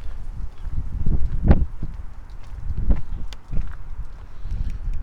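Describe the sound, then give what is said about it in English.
A strong gust of wind buffets the microphone outdoors near a boardwalk, a deep rumbling roar that swells and fades in a few surges. “Ooh, big wind.”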